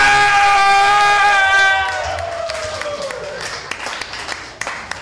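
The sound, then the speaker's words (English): Live show audience clapping: a voice sounds first, then scattered, uneven claps keep going at a lower level, with a few sharper claps near the end. “You guys stopped stomping and clapping so I could dance up here, and you went back to clapping.”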